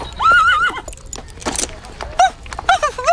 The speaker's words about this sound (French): et des enfants qui font du poney.